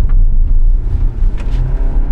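A car's engine rumbles steadily as a learner driver speeds up during a driving practice day in Gothenburg. It is a loud, low drone with slight surges and no sharp revving.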